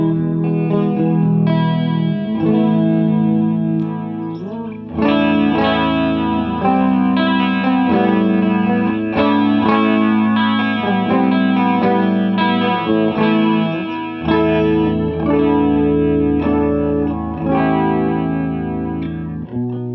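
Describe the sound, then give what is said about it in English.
Electric guitar played through a Mystery Machine chorus effect pedal, a car-themed pedal, with some distortion. Sustained, shimmering chords ring continuously with a wavering, doubled tone, played alone with no talking. “Listen to the Mystery Machine chorus. It's got a very unique chorus sound.”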